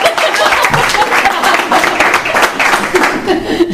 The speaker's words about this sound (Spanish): Un aplauso, por favor.